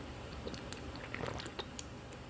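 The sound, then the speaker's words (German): Soft gulps and swallowing as someone drinks still water, a few faint wet mouth clicks and squishes over a low steady hiss, with no talking. “Ich bemühe mich da auch stets und versuche, was habe ich denn hier, 0,5 während des Podcasts auszutrinken. Das muss zu schaffen sein, normales, stilles Wasser. Prost!”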